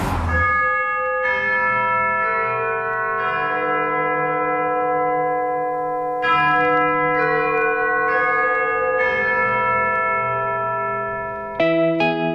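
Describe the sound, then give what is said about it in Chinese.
Big Ben's clock tower bell chimes eleven o'clock. Several loud, resonant strikes with rich ringing overtones overlap and sustain between blows, with an echoing effect. “11点钟，让我们跟随着大本钟开始我们今天的旅程。”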